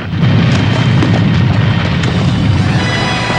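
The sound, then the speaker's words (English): An explosion of fire and smoke as a lava cavern is destroyed: a loud, dense, sustained roaring rumble with no single distinct blast, staying heavy and unbroken throughout. “Just as they make it inside, the cavern behind them is destroyed in a cataclysm of fire and smoke.”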